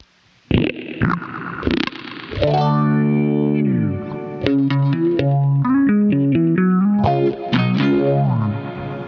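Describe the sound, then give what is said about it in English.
Electric guitar played through a pedal chain with delay, boosted intensity and an added compressor: a few loud picked notes followed by sustained, effects-laden chords and runs that ring on steadily, with no talking. “And then the compressor, which glues all of that together.”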